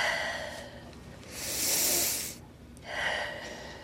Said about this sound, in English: Next deep breath. Let out.